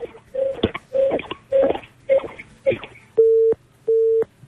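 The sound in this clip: Telephone busy tone after a call is disconnected: a regular series of steady mid-pitched beeps separated by short gaps. The earlier beeps are rough and mixed with noise, and the last two are clean and long.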